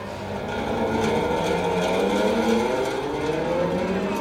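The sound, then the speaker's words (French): Rolling balls in a ball swing instrument make a steady, loud whirring rumble that hardly changes over about four seconds. It sounds much like race cars circling a track. “On va écouter un dernier instrument que j'aime bien aussi, la balançoire à billes.”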